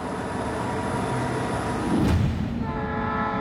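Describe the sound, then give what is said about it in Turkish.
A heavy train hauled by four locomotives, three in front and one behind, on a railway with steep grades and sharp curves: a continuous dense rumble that swells briefly midway, with steady tones emerging near the end. “6,5 tondan ağır olan treni taşımak için 4 adet lokomotife ihtiyaç duyulmuş.”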